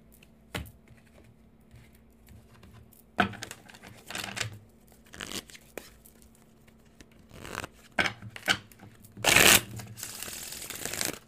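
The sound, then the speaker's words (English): Tarot cards being shuffled and drawn make soft, scattered papery riffles and snaps between quiet pauses, with a longer, louder rustling burst near the end. “Let's pull some fucking cards, Midnight City Tarot.”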